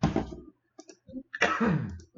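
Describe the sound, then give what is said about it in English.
A person coughing: two short, fairly quiet coughs separated by a brief pause, with a few faint clicks between them. “sorry, not sure why I'm coughing over here.”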